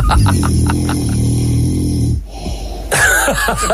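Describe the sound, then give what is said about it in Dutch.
A man snores gently at night, a low rumbling snore with a wheezy edge, then a short pause and a breathier, higher-pitched rasping sound. “Grappig is dat het is wel een soort lieflijke snurk of zo.”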